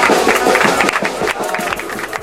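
An audience bursts into loud, dense applause, with continuous rapid clapping throughout.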